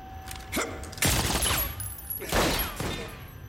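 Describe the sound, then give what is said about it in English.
Gunshots in an exchange of fire among shelves and crates: a few sharp, loud cracks with ringing tails, a lighter shot followed by two heavy blasts spaced apart. “then ducks as he sees the lead criminal, who shoots.”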